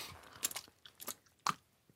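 Someone bites into and chews dry quark balls, giving a few faint, short crunches spread unevenly over two seconds, quiet and with no talking.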